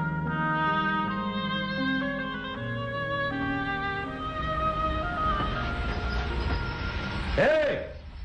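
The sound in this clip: A train arriving on a railway track: a continuous droning rumble that swells toward the end, topped by a brief high-pitched squeal just before it eases off.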